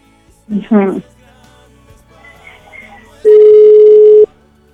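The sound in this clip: A single long, steady ringback tone from an unanswered telephone call sounds loud and unbroken for about a second, following a short stretch of talk and quiet.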